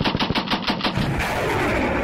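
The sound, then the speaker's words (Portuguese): Rapid gunfire at a military live-fire drill with launches and artillery. A quick burst of sharp shots rattles through the first second, then gives way to a loud, continuous roar of firing. “Lançamentos e fogos de artilharia”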